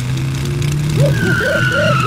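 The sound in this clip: A cartoon vehicle engine as a pigeon drives up in a 'motor pickle': a loud, steady humming drone with a few bouncy, warbling tones rising and falling over it.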